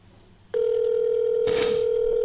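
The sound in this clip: A telephone tone sounds on an outgoing call while waiting for the other person to answer. A steady electronic tone starts abruptly and holds to the end, with a short hiss of noise partway through.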